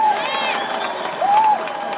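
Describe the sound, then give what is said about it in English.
Audience applause and cheering greet a show host being introduced: a steady, dense wash of crowd noise that holds at an even level throughout. “Put your hands together for the woman of the hour, Dawn Nicoleon.”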